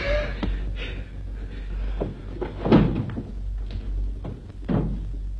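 A door being opened: a few soft wooden clunks and rattles spread over several seconds, with faint background noise.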